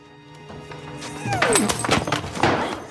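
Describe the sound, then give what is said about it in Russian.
Blows as a woman strikes a guard with a curtain rod taken down from a window: several heavy whacks, thuds and a crash, loud and irregular, with scuffling between them. “Ида бьет охранника снятым оконным карнизом. Охранник скручивает бросившуюся на него Иду и отшвыривает ее. Корзина падает на пол.”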